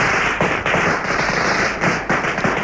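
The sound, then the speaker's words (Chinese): Dense crackling of two long strings of firecrackers set off together at a send-off, a loud, continuous barrage of rapid pops and bangs with no voices. “两挂长长的鞭炮同时点燃”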